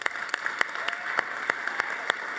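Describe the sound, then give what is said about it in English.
A church audience gives a round of applause: steady clapping with a fairly even rhythm at moderate volume, and no voices over it. “So, but will we thank everyone who I honored? Will we give a round of applause?”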